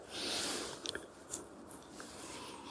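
Faint munching and chewing while eating in an orchard among apple and plum trees, with a few soft, crisp crunches near the middle over quiet background hiss.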